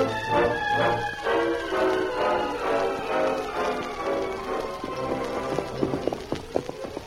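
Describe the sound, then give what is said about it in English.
Hoofbeats of horses riding away toward a frontier town, a steady, rhythmic clip-clop heard alongside sustained tonal sounds, with a few sharper, more distinct hoof strikes near the end. “The Lone Ranger and Tonto rode off from the talkative Obi, who, as they rode away, could be seen trudging back to his wagon.”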